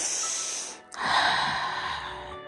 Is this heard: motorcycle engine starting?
no

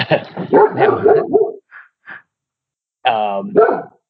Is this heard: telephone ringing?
no

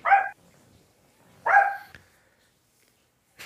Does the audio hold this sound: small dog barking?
yes

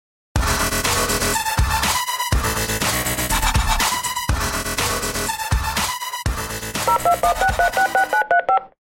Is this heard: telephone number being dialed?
yes

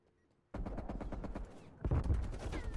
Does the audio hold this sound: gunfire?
yes

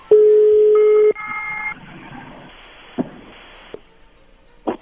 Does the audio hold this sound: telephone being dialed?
yes

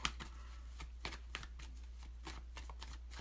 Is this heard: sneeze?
no

